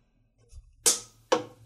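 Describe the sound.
A plastic water bottle is thrown at a trash can and misses. A faint soft tap comes first, then two sharp, bright impacts in quick succession, each dying away briefly.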